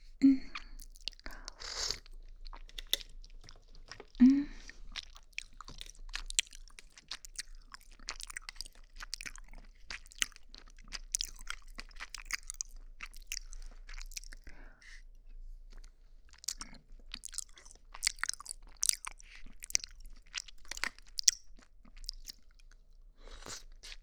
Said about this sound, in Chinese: 我们来吃吃好不好呀？我吃一口，你吃一口，好不好呀？